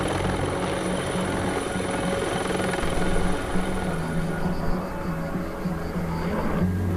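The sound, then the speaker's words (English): Loud, steady helicopter rotor and engine drone from helicopters dropping water on a wildfire near a farming town, continuous and unbroken for the whole stretch with no voices. “Fire brigades fell nearby trees as helicopters dropped water on the still distant flames.”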